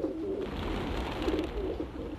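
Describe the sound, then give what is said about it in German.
Pigeons cooing faintly as bread is handed out to them. Several low, burbling coos repeat over a steady low rumble, with no voices. “Ich werde das Brot zu den Tauben hintragen und es ihnen direkt in die Schnäbel stecken.”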